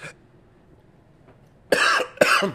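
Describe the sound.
Two loud, harsh coughs burst out in quick succession from a man who had something go down the wrong pipe while eating a peppery burger. They follow a brief quiet stretch with a faint earlier sound.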